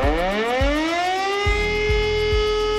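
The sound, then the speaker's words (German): A civil defense warning siren sounds in a test on a nationwide warning day, its wail rising in pitch and then holding a steady loud tone, with a few low thumps beneath. “um 11 Uhr werden wieder die Warnsysteme getestet”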